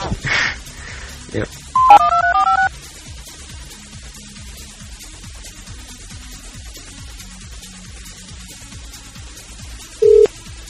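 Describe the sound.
Quick touch-tone dialing beeps open an outgoing call. A faint, repeated ringback pulse follows for several seconds, and a short single beep sounds near the end.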